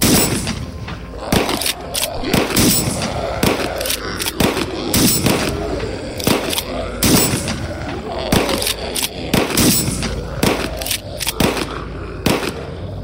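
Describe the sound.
Weapons fire in a shootout: many loud, sharp shots and booming reports in irregular bursts and clusters over a continuous dense roar, with no pause throughout.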